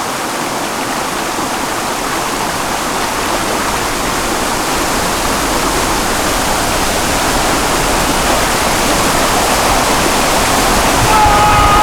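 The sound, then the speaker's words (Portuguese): Rushing water of a small waterfall pouring down: a loud, steady, hissing roar that continues unbroken throughout, with no talk. “Vai em direção a uma pequena cachoeira. Mergulha se vira e fica embaixo do volume de água.”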